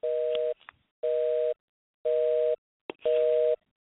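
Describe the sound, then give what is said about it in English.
A telephone busy signal sounds on a call line during phone trouble: four even, half-second tone bursts in a steady on-off rhythm, with a couple of short clicks in the gaps. “Okay, I'm hearing a busy signal. Somebody got a busy signal going?”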